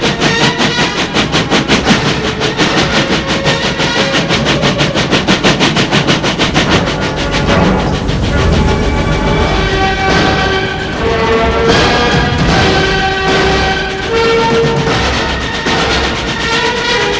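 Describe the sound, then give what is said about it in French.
A train travelling and arriving at Gare de Lyon in Paris: a loud, steady rhythmic rattle runs throughout, and sustained tonal whines join the clatter in the second half. “Enfin, le train arrive, gare de Lyon à Paris.”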